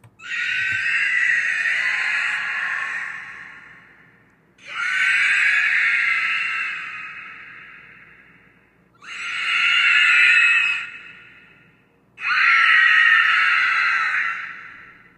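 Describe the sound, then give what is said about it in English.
Shrieking attack sound effect of a fictional wraith creature: four long, loud, breathy screeches, each swelling quickly and then trailing off over a few seconds, with short gaps between them. “And when the Dementor sees you and charges at you to attack, you hear this.”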